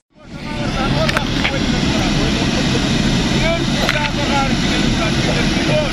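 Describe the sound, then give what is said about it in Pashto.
A loud, steady aircraft engine roar from a private airplane named Kamir arriving in Uruzgan province. The noise swells in quickly at the start, then holds a constant heavy drone with faint higher whines above it. “دا د کامیر په نوم یوه خصوصي طیاره ده چې تر دریو کلونو وروسته نن شنبه اورزګان ولایت ته راغلې”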